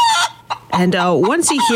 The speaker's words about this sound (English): there is a chicken hidden in a song that sounds like this.